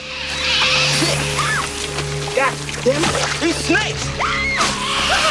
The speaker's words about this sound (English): A flying branch knocks away the rope securing the fuel barrels, which fall into the water.